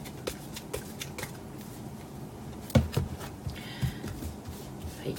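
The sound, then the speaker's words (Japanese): Oracle cards being shuffled by hand during a live fortune-telling reading: many soft papery riffles and taps, with a louder cluster of flicks partway through, all fairly quiet. “今カード切ってますので、ね、少々お待ちください。”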